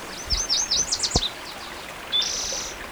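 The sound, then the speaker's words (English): A warbler sings a quick run of high, repeated sweeping notes, then a brief buzzy trill, clear and alone over a faint steady hiss. “The warbler singing.”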